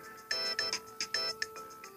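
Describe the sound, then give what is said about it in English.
A mobile phone ringtone previewed from the phone's list: a bright electronic melody of short, plucked-sounding tones in a quick, bouncy repeating pattern of many notes, with no talking. “I'm just going through the list of all the ringtones on my phone.”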